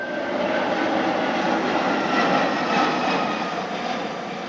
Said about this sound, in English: That was a plane, but no, it was an Airbus A340-600.